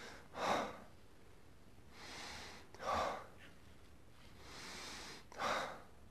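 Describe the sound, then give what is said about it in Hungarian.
Slow, calm breathing paced for falling asleep: three short, sharper inhalations alternate with two longer, softer, drawn-out exhalations, even in rhythm and quiet, with no talking. “Figyeljék meg, persze kiegyensúlyozott, de egy picit hosszabb elnyújtott a fázis a kilégzés, ugye?”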